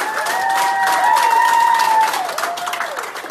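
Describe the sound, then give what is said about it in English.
Hospital nurses and staff cheering and applauding a recovered patient as he leaves, with dense clapping and a sustained, raised cheering voice over it that fades near the end. “The day Cruz left the hospital, the nurses and staff cheered him on and videotaped it.”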